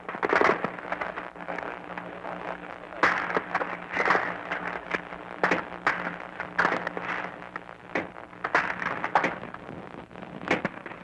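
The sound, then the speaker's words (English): Machine gun fire exchanged in a battle for an island, many sharp cracks and short bursts at irregular intervals over a continuous rough background. “There's a little duel going on between machine guns now.”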